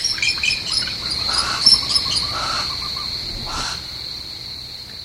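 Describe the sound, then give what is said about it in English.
Young barn owls twitter at the nest as the male returns from a hunt: a continuous shrill, high-pitched trilling with a few louder, harsher bursts over the first few seconds. “Here's the call of a male barn owl again. And now the twitter of the young, as he returns to the nest from a successful hunt.”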